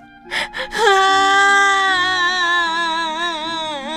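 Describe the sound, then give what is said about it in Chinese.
A woman's voice acts out an old grandmother's crying: a few sharp gasping sobs, then one long, loud, wavering wail that trails on. “糖奶奶气得走出了家门。他在门外呜呜呜的哭了起来，”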